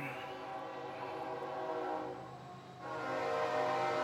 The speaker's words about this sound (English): After the train goes.